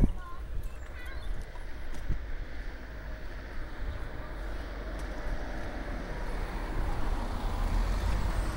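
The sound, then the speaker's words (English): Road traffic passing in a street: a continuous low rumble and tyre hiss that swells toward the end, with people talking quietly over it. “There's a bit of traffic.”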